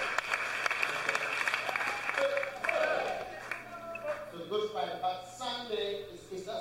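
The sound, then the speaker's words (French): A church audience applauding and cheering during a Holy Week service: lively clapping mixed with voices, followed by calls and speech-like shouts rising over thinning applause. “Ceux qui sont dehors, est-ce que vous allez nous acclamer?”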